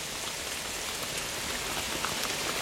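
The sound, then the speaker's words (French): Light rain falls steadily in fine, fairly light drops, making an even, continuous hiss without distinct heavier splashes and with no voices. “Au centre, c'est un fin rideau au réseau discontinu. Une chute implacable, mais relativement lente, de gouttes probablement assez légères. Une précipitation sempiternelle, sans vigueur.”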